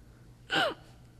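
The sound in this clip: A voice imitating a hiccup with a single sharp, brief gasping inhale, heard alone.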